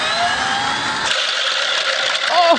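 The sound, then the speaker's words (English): A motorized rubber band machine gun fires as an office prank, a steady, loud mechanical whirring buzz that kicks in about a second in and runs to the end, with a brief voice exclaiming near the close. “That's a machine gun for rubber bands. That's crazy.”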